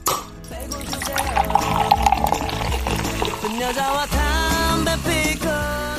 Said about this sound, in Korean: 톡 쏘는 콜라와 함께 손님 대접해보도록 하겠습니다